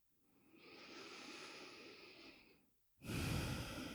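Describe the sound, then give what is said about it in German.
Slow meditative breathing, one long soft inhale that swells and fades, then after a brief pause a louder, fuller exhale. The breath is heard alone, with no talk. “Atme ein und aus, spür dich als Teil des großen Ganzen.”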